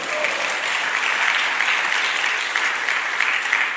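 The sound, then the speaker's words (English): A church audience claps their hands together in steady, sustained applause. The clapping is a dense, fairly loud patter of many hands that keeps an even level throughout. “Clap your hands and say, praise the Lord.”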